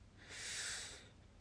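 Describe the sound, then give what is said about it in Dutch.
A deep belly-breathing inhalation, one long airy in-breath with a soft hiss that swells and then fades, heard alone against quiet. “Als je dus door je buik ademhaalt en je ademt diep in, ga ik nu doen,”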